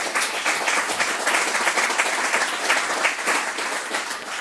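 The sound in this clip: Audience applause breaks out to cheer a guest, with dense, loud clapping held steady from start to finish and no single voice standing out.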